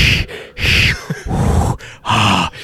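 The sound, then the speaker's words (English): A voice imitating loud breathing exercises: a rhythmic run of forceful, noisy inhales and exhales with some straining grunts, heavy and breathy throughout, with no words spoken. “Breathing exercises, yeah. And then, which the breathing exercises might be why they call you a witch, because you're over in the corner going,”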